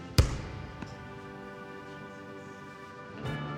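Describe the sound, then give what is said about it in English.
A basketball bounces once with a loud, hollow thud, followed by a much fainter second knock. “he bounces a basketball.”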